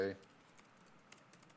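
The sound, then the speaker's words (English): Faint typing on a computer keyboard, a scatter of soft, light clicks at an uneven pace that follows a brief voice fragment at the start. “And then we're going to type SSW, and we're going to submit.”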